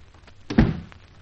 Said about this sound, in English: Shut the door.